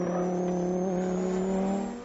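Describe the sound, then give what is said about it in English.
A Lamborghini sports car engine gives a steady, buzzing drone that holds one pitch, then eases down in the final moments. “Ah, yes, we have sound. Delicious Lamborghini feature.”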